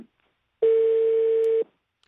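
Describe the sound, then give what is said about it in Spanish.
A telephone line tone after a dropped call: one steady, flat, mid-pitched beep lasting about a second, heard alone in near silence. “perdimos la llamada con Vladimir Turro de la capital cubana”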